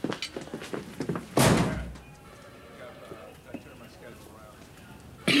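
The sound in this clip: A locker door is opened with a single sharp, loud bang after some lighter knocking. Quieter handling follows, and another abrupt thump comes at the end.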